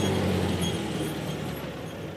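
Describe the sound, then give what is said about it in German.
Rough, steady engine drone of a two-stroke vehicle driving slowly in first gear between rapeseed fields, a continuous dense rumble without breaks or voices. “Zweitaktdunst zwischen den Rapsfeldern in Vorpommern. Und dann im ersten Gang langsam fahren.”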